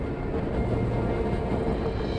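A passenger train rolls along its rails on a luxury route in Canada, giving a steady, dense low rumble with faint rattling and no voices.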